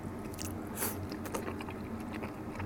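Chewing on soft cartilage with a tender texture like stewed beef tendon: quiet, moist, squishy bites with a few faint crunches over steady low background noise.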